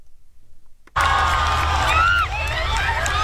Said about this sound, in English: More than a million people line the streets of Madrid today, waving flags and banners to welcome Pope Leo. He greeted the crowds as he made his way through the city in his Pope-mobile